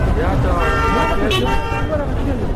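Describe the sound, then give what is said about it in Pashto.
Cars and rickshaws pass through a busy market with food shops, a few short horn toots standing out over a constant loud rumble of traffic and crowd voices. “موټران او رکشي وی او بلې خواته تیریږي.”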